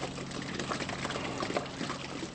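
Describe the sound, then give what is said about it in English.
Liquid manure slurry pours into a 250,000-gallon pit as barn floor scrapers push the muck over a slot in the floor. The result is a continuous, fairly faint splashing rush of thick liquid falling. “As the scrapers pass over a slot in the floor, the load drops over the edge and down into a 250,000-gallon pit.”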